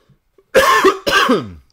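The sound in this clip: Two sharp, loud coughs from someone suffering from allergies, each a short harsh burst with a brief pause between them and no talking.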